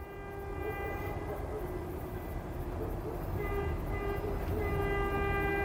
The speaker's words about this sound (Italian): In Cile ci sono treni fantasma che viaggiano di notte.